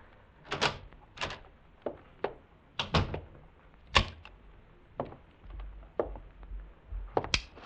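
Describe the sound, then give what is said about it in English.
A key turns in a door lock, making a series of sharp metallic clicks and dull thunks that come in an irregular rhythm, fairly loud against a quiet background. “And then I heard the key in the lock.”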